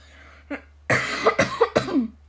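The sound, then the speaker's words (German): Coughing after choking on a peanut: a faint throat catch, then a quick string of harsh, forceful coughs ending in a raspy, drawn-out breath. “sorry, haben mich gerade an der Erdnuss verschluckt. Sehr gemein. Man kann sich da echt schnell dran verschlucken.”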